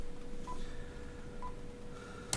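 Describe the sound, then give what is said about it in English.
Touch-tone dialing on a telephone: two short, faint keypad beeps about a second apart, then a longer tone, over a steady low hum and hiss. “Let's try to dial Taansen Fairmont again here. Okay, we're going to try this again on the telephone here.”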